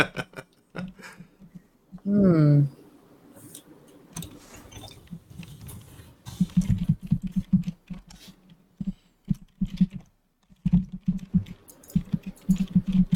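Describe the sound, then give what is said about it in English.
Writers at work typing on keyboards, with bursts of rapid, light key clicks broken by short pauses and a brief tonal, voice-like sound early on. “I like hearing the typing. I think it's good. Cool. If this is also in the podcast, this adds to the atmosphere.”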